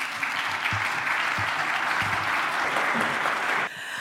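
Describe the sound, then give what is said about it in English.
An audience applauds as authors are welcomed onto the stage, a dense, steady clapping that holds evenly before cutting off abruptly near the end. “Please put your hands together to welcome them on stage.”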